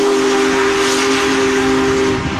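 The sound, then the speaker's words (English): The whistle of the world's largest operating steam locomotive, arriving in St. Louis, sounds as a loud, sustained, steady tone over a bed of steam hiss, lasting the whole moment without a break. “Oh, there it is. That's what we were talking about. Big boy. All right, big boy. The world's largest operating steam locomotive chugged into St. Louis on Saturday”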